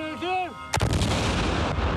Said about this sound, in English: Swedish arms company Bofors has a 40-square-mile weapons testing facility, one of the largest in Europe.